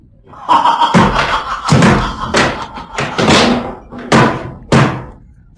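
Heavy knocking on a door, many loud, booming thuds in uneven clusters with short gaps between the blows, each one ringing briefly before the next.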